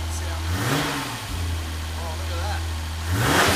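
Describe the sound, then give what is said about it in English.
A VR38 car engine free-revs in the pits after days unused. A deep, steady idle rumble is broken by two revs that climb and fall back, and people talk over it. “It hasn't been started for days, and listen to that. It fired straight up. Listen to that beautiful VR38.”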